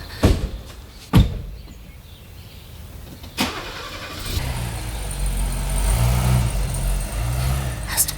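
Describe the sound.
A small car arrives: a few sharp knocks and thuds come first, then a low engine rumble builds and runs steadily to the end, rising somewhat in loudness toward the close.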